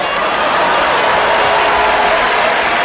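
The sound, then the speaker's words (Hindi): Loud, sustained applause from an audience at a Devi Jagran devotional event welcoming a Bhojpuri singer. It is a dense, steady wash of clapping hands with no break from start to finish. “तो इनका खातिर जोरदार ताली हो जाओ।”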